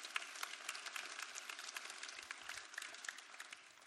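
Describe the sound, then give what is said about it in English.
Audience applause for invited guests coming up on stage: dense, steady clapping that fills the whole stretch at an even level. “Now, can we give them a hand, please, for coming up?”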